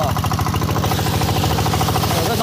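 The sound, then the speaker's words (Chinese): Loud, steady rapid chugging of an engine-driven water pump running as it pumps seawater into a hose, its even mechanical pulse continuing unbroken throughout. “一切准备就绪，发动机启动后，抽水机将海水抽进水管，然后又在海里将泥沙冲洗干净。”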